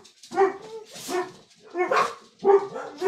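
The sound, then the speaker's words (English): Dogs bark in several loud, rough bursts, a steady run of barks that overlap into a noisy chorus with no pauses between them. “Sorry about the dogs.”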